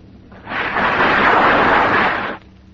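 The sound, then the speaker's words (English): Rifle volley from a firing squad executing a blindfolded man against a wall: one loud, broad, roaring blast that holds for about two seconds, then stops abruptly, with no voices. “And watch this execution. That's an order. Yes, sir. Squad! Fire!”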